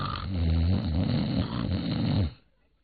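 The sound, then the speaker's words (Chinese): A voice imitates a sleeper's snoring, one long loud rasping, rattling snore lasting about two seconds that then cuts off abruptly. “这呼噜还照打不误。”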